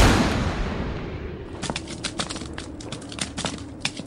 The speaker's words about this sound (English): Oh, God! Holy shit, he exploded!